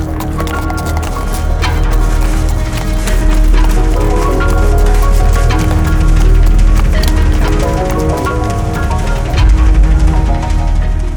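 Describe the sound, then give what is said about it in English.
Hooves clip-clop as a horse tramples through a small patch of rotten pumpkins in a dead crop field, a steady run of hoofbeats under continuous loud music. “The horse begins to trample through a small patch of pumpkins rotten from the base to the roots, binding into the ground.”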